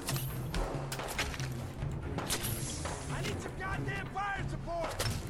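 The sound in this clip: Video game gunfire from a .308 rifle, a few sharp booming shots scattered among other game sounds while someone talks over them.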